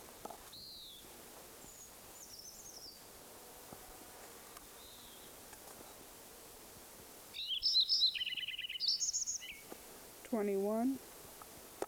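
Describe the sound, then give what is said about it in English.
A Lincoln's sparrow sings in a farm meadow. Faint, scattered chips give way to a quick, bubbly, trilled song burst, then a short buzzy phrase that tumbles downward, all quiet against a soft background. “Lincoln Sparrow number one at Metcalf Farm Meadow”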